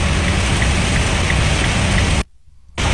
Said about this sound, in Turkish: Böyle bir yağmur yağıyor mu ya?